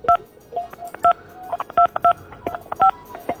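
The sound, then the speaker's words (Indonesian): Telephone keypad tones during a call: several short dual-pitch beeps in an uneven sequence, mixed with faint clicks and line noise, with no voices. “Tut bae suaranya nih.”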